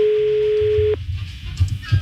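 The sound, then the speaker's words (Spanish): A phone call ringing out unanswered: one steady mid-pitched ringback tone holds for about a second and then cuts off, leaving faint low background rumble with a few soft bumps. “No contesta. Se llama Rosy la señora, pero no contesta.”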